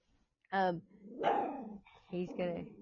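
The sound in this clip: A dog barks in a few short, sharp, harmonic bursts, with a person talking in between and alongside the barks.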